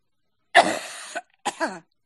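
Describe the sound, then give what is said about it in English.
A person coughs hard during an intense healing session, bringing up nasty phlegm. There are two harsh bursts: a long, rasping cough that ends in a short catch, then a shorter, throatier cough with a double push. “Cough it out. Cough all you need.”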